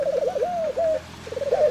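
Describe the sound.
A person imitates pigeon cooing, the voice mimicking a dove's call in a few throaty, warbling coos that waver up and down in pitch, fairly loud, with no other speech.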